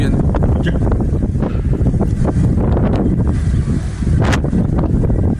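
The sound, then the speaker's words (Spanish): Strong wind buffeting the microphone in stormy weather: a constant, loud, rumbling roar with gusty surges throughout. “Terrible el viento.”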